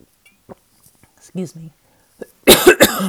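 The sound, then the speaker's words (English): Coughing fit from a person reading aloud: a loud, rapid burst of about three harsh coughs at the end, after quiet throat noises and faint vocal sounds. “I'm sorry, I'm over that coughing fit now.”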